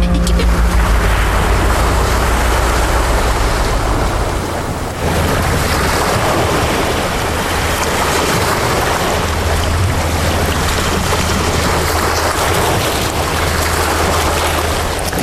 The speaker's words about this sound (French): Ta balade sonore au bord de la mer, j'ai choisi de t'emmener quelque part en Bretagne.